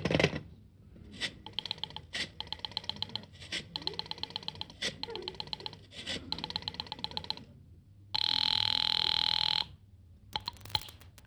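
A telephone is dialed: a run of sharp clicks comes in bursts, then a steady, bright ringing tone holds for over a second before a few more clicks.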